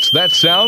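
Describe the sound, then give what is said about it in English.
Boat dock electrical hazard alarm, which warns of dangerous electricity in the water around the dock, sounding as a steady high-pitched electronic tone that continues beneath a person's brief spoken question. “That's the sound of the dock lifeguard warning you it's not safe to be in the water around your boat dock.”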